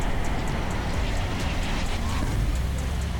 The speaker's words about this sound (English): Here we go, trucks are moving.